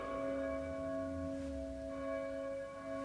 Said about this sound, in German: Mein Gott! Die Glocken! Was? Schon wieder?